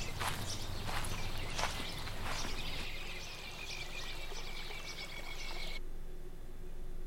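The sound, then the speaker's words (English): Footsteps walking forward in a video game. A few soft steps at the start over steady background noise, with a sustained high tone that cuts off near the end. “You continue walking forward.”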